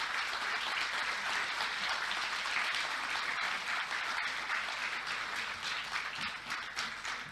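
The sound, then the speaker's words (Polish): Audience applause fills a ceremony in Gdańsk welcoming German officials, a dense, steady roar of many hands clapping that holds at an even level for about seven seconds with no voices over it. “Teraz poproszę o gromkie brawa.”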